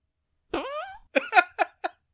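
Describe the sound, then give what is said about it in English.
A human voice imitates someone sneakily passing gas: one drawn-out, wavering, reedy sound followed by several short, clipped puffs in quick succession, fairly loud against silence. “The other thing I use that sound effect for is like the idea of somebody sneaking out a fart.”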